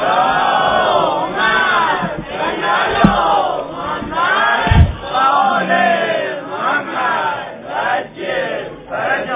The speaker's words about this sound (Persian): به روح مطهر آقا امیرالمومنین یه صلوات بلند بفرستید.